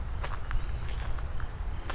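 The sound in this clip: Footsteps walk through a forest as a run of soft, crunching steps over a steady bed of outdoor background noise, with no voices.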